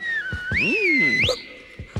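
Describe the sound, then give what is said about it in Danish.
A cartoon character in a children's Christmas song whistles a short, loud tune. The high notes slide down, swoop up and settle, and a few soft beats sound underneath. “Og så fløjter han den der.”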